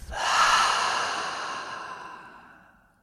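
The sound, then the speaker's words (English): A deep breath taken during a guided relaxation exercise: a single long, airy rush of air that swells quickly, then slowly fades over a few seconds. It is heard on its own, with no talk. “take a deep breath in through the nose. And let it out through the mouth.”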